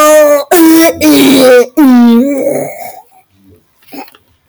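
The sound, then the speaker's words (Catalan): A cartoon voice imitates vomiting with a few strained, groaning retches that are loud and tonal. They trail off into faint gurgling sputters. “Bex, m'has vomitat a sobre! Quin fàstic!”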